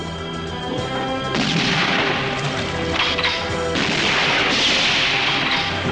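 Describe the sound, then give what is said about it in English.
Gunfire and splintering wood as the oars of a rowing boat are shot away: a few sharp, loud crashes and cracks burst over continuous dramatic music. “In the boat, an oar is shot away. Another is splintered.”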